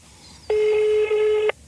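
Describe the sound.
A telephone tone sounds as a number is dialed: one steady, clear electronic beep held for about a second, fairly quiet and alone, with no talk.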